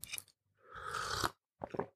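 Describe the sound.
Crunching and chewing on a throat lozenge by someone with a cold: a few quiet crisp bites around a longer grinding crunch in the middle, with no talking.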